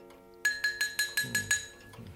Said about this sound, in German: Der größte Wissenschaftler und Kriminologe aller Zeiten erhob sich und schlug mit dem Teelöffel an seine Tasse.